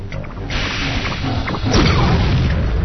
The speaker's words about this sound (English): Now if I want to fire a missile, I get him positioned, and I press the space bar.